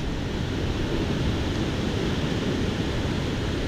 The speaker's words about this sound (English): If you can hear the ocean in the background,